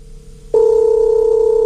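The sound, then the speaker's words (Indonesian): A telephone dial tone while placing a call, a loud, steady hum that starts abruptly and holds unbroken to the end, after a fainter tone at the start. “Coba kita hubungi Felin ya. Nyambung gak?”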